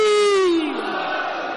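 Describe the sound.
A crowd roars back in answer to the Naara-e-Haidari chant call during an Urdu devotional recitation; a single loud sustained voice falls in pitch and gives way to a continuous mass shout.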